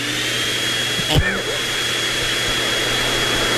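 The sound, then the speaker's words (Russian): A poplar-fluff vacuum machine of the kind used in Moscow gives a steady, loud, roaring whoosh like a large vacuum cleaner. The drone holds an even level throughout, with only a brief small flutter. “Вот Москва примерно в таких звуках будет это, все лето. Если что, это звук пухососа.”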